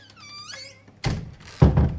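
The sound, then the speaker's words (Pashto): A door being opened to let a visitor in, marked by two loud, dull thunks about half a second apart, the second one heavier, with no talking. “اورګه دروازه کولاوم.”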